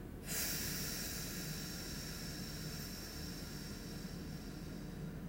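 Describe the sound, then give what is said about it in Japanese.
A slow, deep exhale during a guided relaxation breathing exercise: a soft, airy hiss begins abruptly and flows on steadily for several seconds. “はい最後吸ってくたっぷり吸って吐きます”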